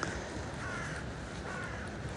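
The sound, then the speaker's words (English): Faint cawing from a large flock of rooks or crows, a few harsh calls rising out of steady background noise. “Ooh, goodness me, there's a whole bunch of them. A big bunch of them. So I'm inclined to say rooks rather than crows, but you never know.”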